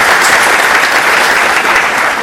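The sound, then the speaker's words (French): Audience applause at a film awards ceremony: loud, dense, steady clapping from a large crowd that holds at an even level throughout. “Donc je vous demande l'applaudissement ce soir.”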